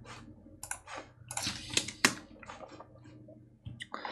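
Computer mouse clicks while someone right-clicks to open a GIF link in a web browser: many short, crisp clicks come at irregular intervals over a low, steady hum, with a few sharper, louder taps among them.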